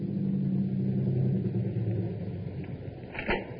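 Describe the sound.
A car's motor runs while parked at a drive-in, giving a steady low engine rumble that stays even throughout, with no voices over it.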